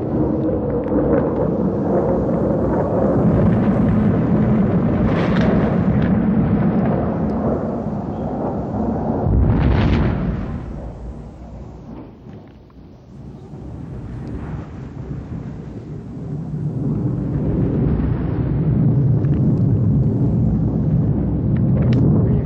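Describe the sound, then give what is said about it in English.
Distant bombing during a night of heavy air raids: a continuous low, heavy rumble of merging blasts with a windy hiss, swelling and fading, with one sharper boom standing out partway through. “I can hear some bombs in the distance. The sky is lighting up, so something's going on somewhere.”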